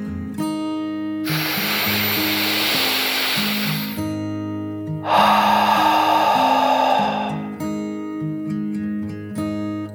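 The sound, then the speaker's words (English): A deep breath in and out over steady background music: two long, loud, breathy rushes, the first an inhale and the second a slightly lower, fuller exhale. “Kit took another deep dragon breath, in and out.”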